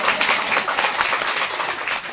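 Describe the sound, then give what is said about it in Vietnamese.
An audience at a Buddhist dharma talk claps: dense, loud applause from many hands, steady and even from start to finish, with no voices. “Đúng, vỗ tay đi.”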